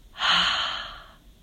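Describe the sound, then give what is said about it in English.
A full exhale through the mouth with a breathy 'ha' sound: one long, airy rush of breath that swells quickly, then slowly fades out. “we'll make an exhale through the mouth with the sound of ha. So it'll sound like this.”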